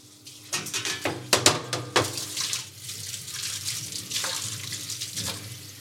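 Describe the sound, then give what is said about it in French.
Tap water runs over desalted mackerel fillets being rinsed for a ceviche, with irregular splashes and spattering bursts against a steady hiss of flowing water, no talking. “On dessale nos poissons ça fait 30 minutes. Donc là, le but, c'est juste rincer.”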